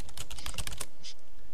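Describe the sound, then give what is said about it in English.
Typing on a computer keyboard, a rapid burst of many crisp key clicks that stops after under a second, followed by quiet with no talk. “Okay, hold on. I'm going to type it in here.”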